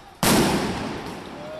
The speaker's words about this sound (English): The police stood silently for a time, then threw concussion grenades